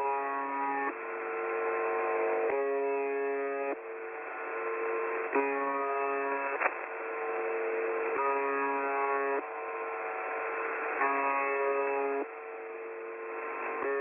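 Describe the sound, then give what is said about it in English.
A dull, monotonous broadcast tone drones continuously as a buzzy, harmonic-rich hum that shifts at regular intervals to a second, foghorn-like tone and back, repeating steadily throughout. “7 days a week, for the last four decades, it has been broadcasting a dull, monotonous tone that sounds like this.”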